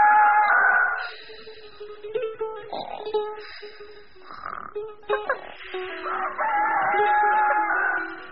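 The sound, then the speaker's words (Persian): A rooster crowing in the early morning: a long, strained, harmonic crow at the start and another stretched call near the end, with shorter, choppy fowl calls scattered between. “صبح زود خروس شروع به خوندن کرد.”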